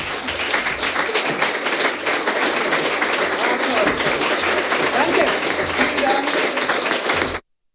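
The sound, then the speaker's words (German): Sustained applause from an audience on its feet in a standing ovation at the close of a queer literature reading festival. Dense, steady clapping continues throughout with crowd voices mixed in, then stops abruptly. “Ihr hört es im Hintergrund, das Publikum ist begeistert und alle Anwesenden freuen sich über diese Lesung”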